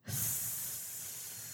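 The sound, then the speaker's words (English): A voice imitates the low hiss escaping from an opened locket: one breathy 'sss' that swells quickly and then holds steady, fading only slightly over more than a second, alone. “when she opens the locket, there is like a low hiss coming out of it, just like a”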